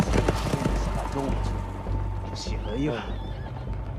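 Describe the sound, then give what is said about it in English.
Horses gallop off with hoofbeats under a steady wash of noise, and a loud whinny rises out of it near the end. “The horses gallop off.”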